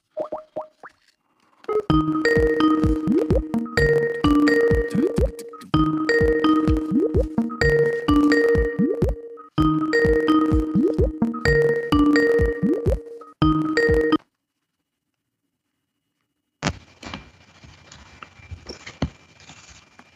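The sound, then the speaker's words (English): A call's ringing tone repeats in several near-identical melodic bursts, heard while a number is being dialed. The bursts are separated by short gaps, followed by a silence and then a faint, hissy stretch at the end. “Let me dial up Muhammad here. Dialing up Muhammad.”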